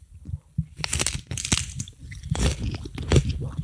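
Close-up crunching as rice cakes with tomato paste are bitten and chewed for an ASMR moment, several sharp crunches and irregular munching with no talking.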